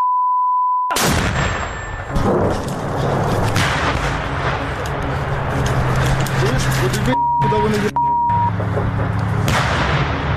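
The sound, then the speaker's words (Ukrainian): A Ukrainian tank fires on Russian army positions during a battle, with several heavy, booming blasts and a dense, loud rumble. Short electronic beeps cut in at the start and near the end, and voices are present. “Зараз український танк валить по позиціях російської армії, де намагалися підбити. Бій зав'язався на фоні.”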